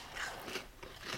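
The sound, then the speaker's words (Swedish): Faint crunchy bites into a crispy, waffle-like peanut butter and jam sandwich, heard as a few brief crackling crunches in quick succession with soft chewing between them. “Jag har inte ätit så mycket sån här jordnötssmörsyltmacka tidigare, men den här var väldigt krispig och god.”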